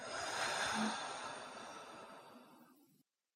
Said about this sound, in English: Let's do that again. Breathe in. and out.